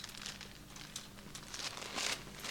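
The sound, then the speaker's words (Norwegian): Faint, dry rustling and crinkling of thin paper as Bible pages are flipped quickly to find a passage in Colossians, a soft continuous riffle with a few sharper flicks. “Skal vi se hvem som er raskest til å bla opp her.”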